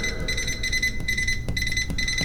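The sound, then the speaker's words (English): Electronic beeps repeat as a run of high-pitched tones with short gaps between them. They sit over a constant hiss and low noise. “With some beeps”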